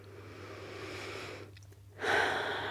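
Deep inhale by a person, a faint airy breath that drops to a brief hush, then swells into a fuller, rushing intake of air. No talk.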